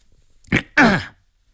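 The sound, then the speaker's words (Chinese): A person clears their throat in two rasping bursts, a brief one followed by a longer, louder gravelly one, then quiet. “清了清嗓子”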